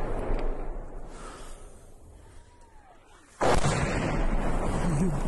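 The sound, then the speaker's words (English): Missiles pass overhead of soldiers in a forest in the Kharkiv region and strike: a faint, falling whistle is followed by a sudden, heavy blast whose loud rumbling roar carries on to the end. “So those were guys isolated in the forest, and they're just hearing the missiles pass above their head and hit.”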